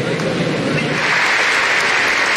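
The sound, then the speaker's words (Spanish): Applause and ovation from the audience at a presidential inauguration in USC Arena, Cali. Dense, steady clapping fills the whole stretch without a break. “Entre aplausos y una sentida ovación, el presidente del Senado, Honorio Enríquez, pronunció uno de los discursos centrales de esta posesión presidencial.”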